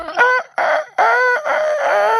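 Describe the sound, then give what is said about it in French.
A rooster crows loudly in a rich, harmonic, strained call broken into a few segments, with the last stretch held longest and steadiest, heard alone without talk. “Le coq le plus pourrave du monde.”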